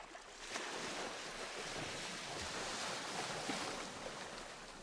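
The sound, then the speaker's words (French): Ocean waves wash against rocks in a continuous, steady roar of surf mixed with wind noise, with no voices. “au milieu du bruit majestueux que faisaient les vagues en caressant les rochers”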